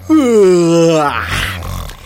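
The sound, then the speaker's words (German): A voice imitating a snoring bear: a loud, drawn-out groaning tone that sinks slightly in pitch, then gives way to a rough, breathy rasp. “das ist Olaf, der Schnarchbär”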